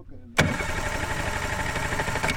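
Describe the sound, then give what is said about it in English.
A small metal motorboat's engine cuts in abruptly after a brief quieter moment, then holds a steady, loud mid-pitched drone while the boat moves through tall reeds at the Ciénega de Santa Clara wetland in Sonora, Mexico. “Juan Butron Mendez navigates a small metal motorboat through a maze of tall reeds at the Cienega de Santa Clara in the Mexican state of Sonora.”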